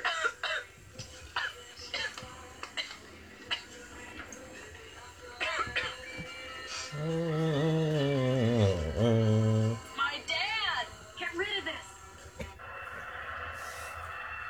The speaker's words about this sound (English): stop coughing. What's the matter with you?